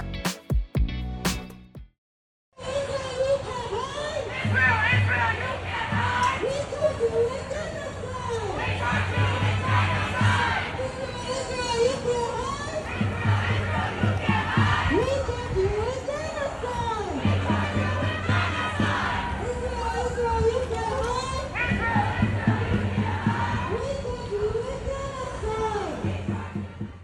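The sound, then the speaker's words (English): Students chant in unison at an anti-Israel demonstration at UCLA. The loud crowd repeats a rhythmic phrase in steady cycles over shouting and chatter, after a brief silent gap near the start. “What you just heard was a group of students at UCLA chanting, "Israel, Israel, you can't hide. We charge you with genocide."”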